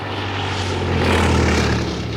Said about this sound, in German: Da entstand plötzlich ein Geräusch und eine Bewegung in der Luft. Alle erhoben ihre Augen und gewahrten in mittlerer Höhe ein dunkles Objekt, ein zweimotoriges Flugzeug, das zielstrebig auf den gemalten Himmel zusteuerte.